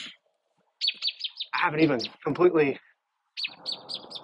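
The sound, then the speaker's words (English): Birds chirp outdoors in quick repeated bursts of high, bright tweets. A person talks briefly between the calls, and several short chirp series come before and after the talking. “Birds chirping.”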